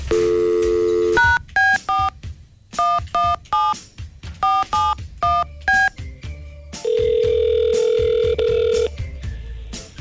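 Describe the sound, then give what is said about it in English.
Telephone number being dialed for a call: a steady tone, then a quick run of many loud touch-tone beeps in uneven rhythm, ending in a long sustained tone. “Why don't we give her a call?”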